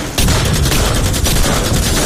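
A squad fires a volley of gunfire in an ambush: a dense, loud barrage of overlapping rapid shots that merge into one continuous roar.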